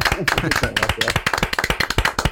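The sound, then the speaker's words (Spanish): Audience applause for a guest on a talk show, crisp individual claps in a quick, steady rhythm, loud and close together, with a voice heard briefly near the start. “Fíjate, todavía sin haber respondido, te ibas a esta primera ovación, naturalmente. Este primer aplauso.”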